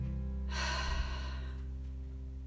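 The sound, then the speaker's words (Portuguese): Breathing out through the mouth during a guided breathing exercise: a single long, airy exhale lasting about a second, rising quickly and then fading into a soft hiss. “Solta o ar pela boca. Novamente você inspira. Solta o ar pela boca.”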